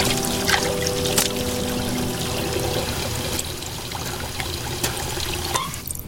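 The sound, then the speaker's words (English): Water scooped by the handful from a wash basin and splashed onto a face below deck on a boat: continuous trickling and splashing with several sharper splashes, steady in loudness, no talk. “Marcus cups handfuls of water from a wash basin over his face.”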